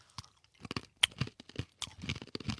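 Someone chews sticky food, with soft, irregular mouth sounds broken by several crisp crunches, quiet and alone.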